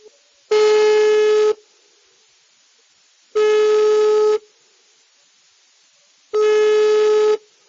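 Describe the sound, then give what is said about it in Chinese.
Phone ringback tone heard while calling an uncle: three steady, buzzy mid-pitched beeps of about one second each, evenly spaced with silent gaps between them. “等我一下，我马上拿电话啊，我给这个小叔打电话。”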